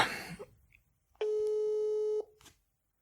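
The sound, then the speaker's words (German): A telephone ringback tone plays while a call to a family member is being placed: one steady, clean beep at a fixed mid pitch lasting about a second, with near silence before and after. “Sollen wir mal meine Schwester anrufen?”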